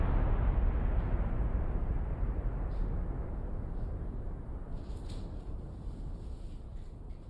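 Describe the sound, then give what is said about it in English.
A bomb explosion sound effect: a dense, loud, low rumble that fills the whole clip without a break and eases off only slightly over about seven seconds. “Drop a bomb for not being smart.”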